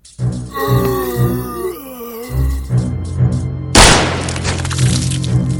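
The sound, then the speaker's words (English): A decomposed old man's head explodes, splattering blood and bone: strained groaning is followed by a sudden loud, wet, crunching burst, then a dense noisy spatter that trails on. “The man's head explodes, sending a torrent of blood, bone, and brain matter splattering onto Vicky”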